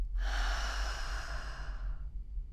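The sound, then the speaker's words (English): A slow, deep breath taken during a guided mindfulness breathing exercise. A single airy rush lasts about two seconds and then fades, over a steady low hum. “trying to focus our full attention on the sensation of the breath. Breathing in and breathing out.”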